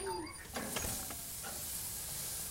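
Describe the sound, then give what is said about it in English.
Ground beef burger patties sizzle on a home grill with a steady, continuous hiss and crackle, broken by a few brief clicks early on. “It's burger night at our house, so I'm headed out to put a few patties on the grill.”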